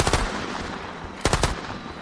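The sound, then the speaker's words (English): Volleys of bullets spray from robots' mounted firearms in two rapid bursts of machine-gun fire, each a quick string of sharp, loud shots, with a rumbling tail between them. “raising his twist blade like a shield to block the incoming volleys of bullets that sprayed from the robots' mounted firearms.”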